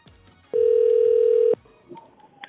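Ringback tone as a telephone call is placed to a caller's number: a single loud, steady beep of even pitch lasting about a second, followed by faint line noise and soft tones.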